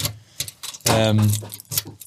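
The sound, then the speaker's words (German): Jangling from a large bunch of keys, carried while arriving at a house in South Africa: a few short metallic rattling bursts mixed with a voice talking. “ich habe direkt einen Schlüssel bekommen mit 20.000 Schlüsseln dran, weil man überall irgendwas abschließen muss”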